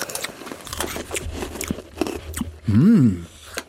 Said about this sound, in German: Ich habe hier gefriergetrocknete Himbeeren. Okay. Also die sind eher gepresst aus, nicht so rund. Die sind noch voll hart.